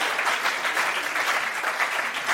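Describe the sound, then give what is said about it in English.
Steady applause from a church audience during a worship service: dense, continuous clapping at an even, fairly loud level throughout, with no talking over it. “A round of applause.”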